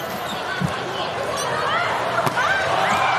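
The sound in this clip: A volleyball is served in a match at 23-22, with a few sharp thumps of the ball struck over constant crowd noise and commentary.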